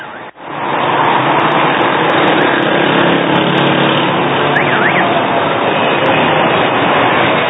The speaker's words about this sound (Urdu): بے ہنگم ٹریفک ہے